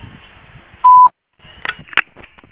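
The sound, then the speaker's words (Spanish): A single steady electronic beep marks the start of voicemail recording on a phone line. It is mid-pitched and lasts about a quarter second after faint low hum, then a short silence follows. “Si desea, deje su mensaje en la casilla de voz. En tono, grabe su mensaje.”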